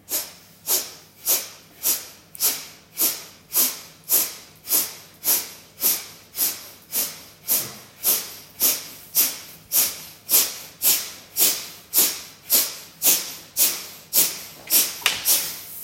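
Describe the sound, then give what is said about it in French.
Kapalabhati yoga breathing, with sharp, forceful exhalations pushed out through both nostrils in a fast, steady rhythm. Many evenly spaced puffs of air, each a short hissing burst, with no talking. “Maintenant, de nouveau, 30 Kapalabhati, mais cette fois-ci avec les deux narines.”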